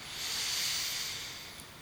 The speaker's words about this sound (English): So, nice deep breath in.